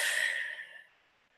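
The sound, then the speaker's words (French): A long, deep breath is let out during a guided breathing exercise of belly breathing. The breathy hiss starts loud, fades over most of a second, then leaves quiet. “Alors on inspire profondément avec le ventre et on relâche. On inspire et on relâche.”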